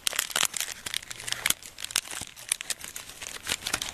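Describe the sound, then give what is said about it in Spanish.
Crackling sound effect of a small paper fire: many dry, irregular crackles, pops and crinkles run continuously throughout, fairly faint and with no talk. “Más fueguito. Este es un fueguito de papel chiquito.”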